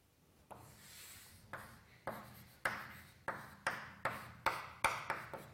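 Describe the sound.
Writing on a board during a maths lecture: a quiet series of short scratchy strokes with sharp taps. The strokes come faster toward the end, and no one speaks.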